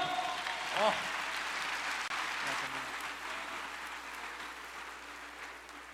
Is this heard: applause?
yes

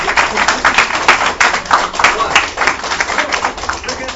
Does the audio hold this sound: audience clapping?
yes

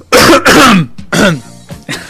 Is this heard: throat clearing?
yes

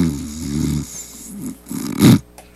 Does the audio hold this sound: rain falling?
no

